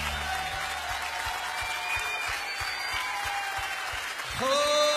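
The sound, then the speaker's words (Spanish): An audience at a worship gathering applauds, a steady wash of clapping carried over a regular, rhythmic low thump, and a new sustained sound enters near the end. “Aplaudale a él.”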